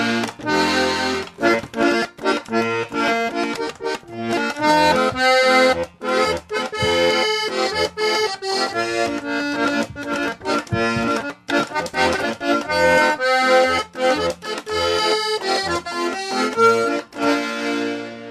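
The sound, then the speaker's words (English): A two-reed button box accordion played alone with rich, reedy sustained chords and a steady bass pulse, a lively and bouncy rhythm continuing without a break. “Okay, this is my little button box. This is what we call a two-reed box,”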